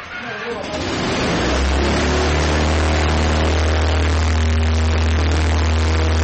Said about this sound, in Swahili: Injini inavuma pale anapoiwasha helikopta hiyo ndani ya gereji yake. Inaanza kutikisika kana kwamba inataka kuanza kupaa.